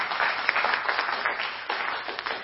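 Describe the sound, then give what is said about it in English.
Audience applause in a church gathering as a volunteer is called up to the front: a dense, continuous patter of clapping that dips briefly near the end before carrying on. “if you could have a round of applause for Peter.”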